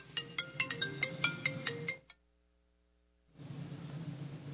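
A mobile phone ringtone plays a quick, bright melodic pattern of beeping tones that cuts off abruptly, leaving near silence before a low steady hiss returns.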